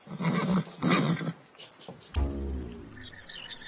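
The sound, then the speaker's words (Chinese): A pony neighs: a quavering whinny with a falling pitch follows a few noisy, breathy bursts. “看小马。”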